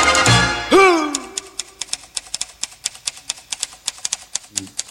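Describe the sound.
Typewriter keys clack in a steady, even rhythm of many sharp, regular clicks within a French chanson, after a brief sung sliding note at the start.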